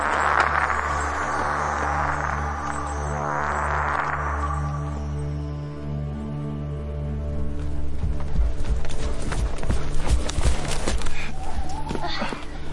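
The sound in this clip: Horses' hooves beat on the ground as riders hurry toward a farm. A dense, rumbling stream of hoofbeats grows busier toward the end, with voices over it.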